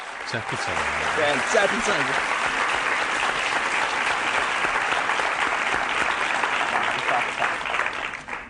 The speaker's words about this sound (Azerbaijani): Alqışlayın məni.